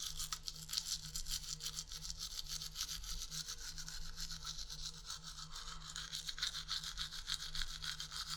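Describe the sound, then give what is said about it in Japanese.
Electric toothbrush buzzing steadily while brushing teeth, a continuous even hum with a faint scrubbing texture and no breaks. “普段電動歯ブラシ使ってるんですよね”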